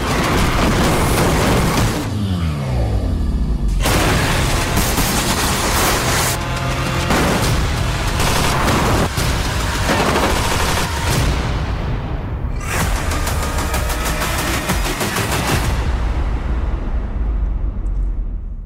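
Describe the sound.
Explosions and gunfire from a zombie action movie trailer form a loud, dense, continuous roar with repeated heavy bursts and crashes, and no talk.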